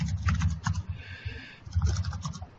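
Rapid keystrokes on a computer keyboard form a dense, irregular run of clicks with a few brief pauses, and no voices are heard.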